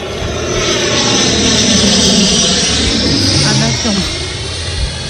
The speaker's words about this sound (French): Oui, c'est un avion. Un avion.